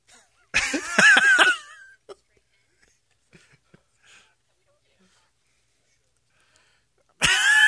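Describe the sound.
Exaggerated heavy breathing made by a person on request: a loud burst of raspy, voiced gasps lasting about a second, then near silence with faint small noises, and another loud vocal burst starting right at the end.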